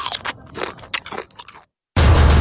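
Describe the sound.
Crunchy bites into a Nabisco snack: a few sharp, crackling crunches and chewing sounds over about a second and a half, then a brief silence before a loud burst of noise.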